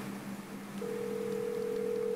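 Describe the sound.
A telephone ringing tone sounds on an outgoing call, a steady, fairly low hum that starts partway through over a rough background noise and holds to the end.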